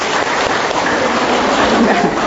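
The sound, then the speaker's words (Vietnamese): Loud, dense applause from a church audience honoring a group from Buôn Ma Thuột, a continuous patter of many clapping hands, almost like heavy rain, holding steady at full volume. “Chúng con hôm nay một tràng pháo tay cho Buôn Mê Thuột.”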